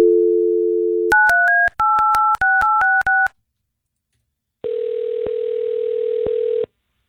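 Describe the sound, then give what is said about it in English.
A telephone dial tone is followed by a quick run of many keypad tones as a call is dialed. After a pause, a longer steady tone sounds with no talk. “Okay, so we're going to get your cousin Nick on the phone.”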